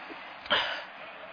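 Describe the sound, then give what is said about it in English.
A single short cough from a person outdoors amid heavy pollen, a brief, fairly faint burst over steady background hiss. “There must be 90 million pounds of pollen in the air. I still cough like that, though.”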